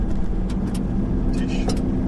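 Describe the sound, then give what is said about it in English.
Car road noise while driving along a road toward a radio astronomy observatory: a steady, loud low rumble of engine and tires throughout, with a fainter hiss above it. “We're driving along”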